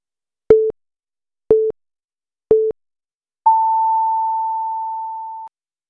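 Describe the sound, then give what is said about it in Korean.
Radio hourly time signal marking two o'clock: three short beeps spaced one second apart, then a single longer, higher-pitched tone lasting about two seconds, clean and alone. “정성을 다하는 국민의 방송 KBS가 잠시 후 2시를 알려드립니다.”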